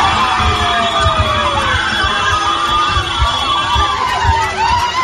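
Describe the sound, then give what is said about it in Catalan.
Loud, continuous cheering and shouting as the Cadí La Seu women's team celebrates qualifying for the Eurocup quarter-finals at the end of their match in France, with excited yells and high whistling voices. “Són les jugadores del Cadí i la Seu acabant el seu partit a França i classificant-se pels quarts de final de l'Eurocup femenina.”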